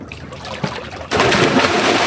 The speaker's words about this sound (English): Taking the plunge into the warm, clear waters of the Mediterranean.